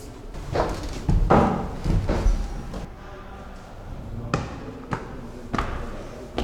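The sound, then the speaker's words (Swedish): Students knock their knuckles on a table after a lecture: many dull thumps in an irregular rhythm. The raps cluster more densely early on, then come as spaced single knocks. “Efter föreläsningar så knackar alla studenterna i bordet. Jaha, så där.”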